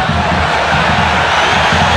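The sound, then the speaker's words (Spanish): A dense, steady roar fills a football stadium as Gimnasia fans protest during a Gimnasia versus River match, a loud, continuous wash of crowd noise with no clear breaks. “Se queja la gente, reclama todo el público tripero.”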